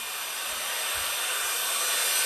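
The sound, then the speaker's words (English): A small snow machine at an outdoor holiday event in Florida runs with a steady, airy blowing hiss, constant throughout and swelling slightly. “We got a little snow machine over there.”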